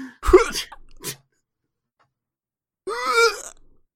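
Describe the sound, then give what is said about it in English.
Throat clearing as someone coughs something up: a rough, harsh hacking burst, then silence, then a voiced, groaning clear of the throat. “Oh, jeez, I did spit something up. Congratulations. Oh, that cleared my throat.”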